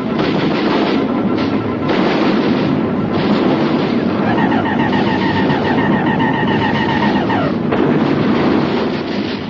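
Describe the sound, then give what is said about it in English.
Artillery batteries keep firing on an advancing attacker: a dense, unbroken barrage of booms and rumble at steady high loudness, with a wavering high tone sounding over the middle of it. “They're coming at us! All batteries, repeat fire!”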